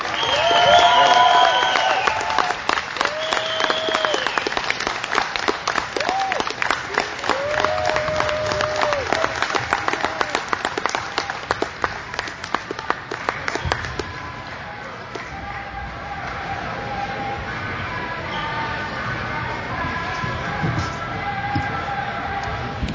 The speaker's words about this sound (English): So please, they made history. Put your hands together for the Canadian men's national team.